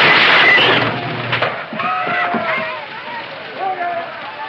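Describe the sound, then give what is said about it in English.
Gunshots shatter a mirror in a western-town barbershop, a loud crash of breaking glass at the start, followed by voices talking. “Bullets shatter a mirror and the barber beats a hasty retreat.”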